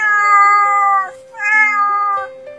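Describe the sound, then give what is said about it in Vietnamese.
A cat meowing pitifully, two long drawn-out plaintive meows, loud and close, separated by a brief dip, with no other sounds. “Tiếng mèo vang lên đầy tội nghiệp.”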